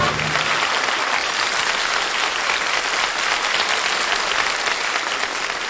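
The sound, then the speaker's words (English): A crowd applauding and cheering at the St. Patrick's Day Parade on Fifth Avenue in Manhattan, a dense, steady roar of clapping that stays loud throughout. “Decked out in green, cheered as the St. Patrick's Day Parade, the world's oldest and largest, marched in Manhattan.”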